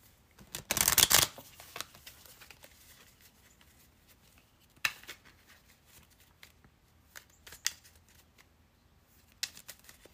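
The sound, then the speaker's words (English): Tarot cards being shuffled and pulled during a reading: a short, loud riffling burst near the start, then scattered soft snaps and taps as single cards are drawn from the deck. “I'm going to pull a couple more cards. What else is going on with the collective?”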